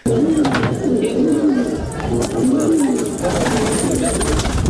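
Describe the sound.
Pigeons cooing, domestic birds kept by pigeon breeders in Kunduz, Afghanistan: low, warbling coos repeat in a steady series over a constant bed of background noise.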